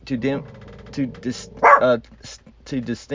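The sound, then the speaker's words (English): A pet dog barks a few times in short, sharp bursts while a person keeps talking over and around the barks. “My dog really wants to talk today.”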